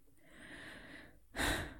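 A deep breath: a long, soft inhalation followed by a short, louder rush of air, quiet and alone.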